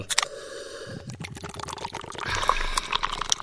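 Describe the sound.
A drink can is cracked open and poured, a few sharp clicks and snaps at the start giving way to a steady fizzing, splashing pour of liquid.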